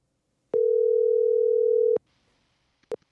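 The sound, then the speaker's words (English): A telephone dial tone sounds as one steady, unbroken note for about a second and a half, then cuts off, followed by a single short click. “let's get Om on the phone”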